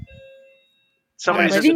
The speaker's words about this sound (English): I like your doorbell, by the way